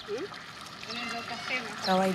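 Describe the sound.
Water trickles and pours into 20-litre containers at a communal tap in Zanzibar, a soft running stream heard under people talking.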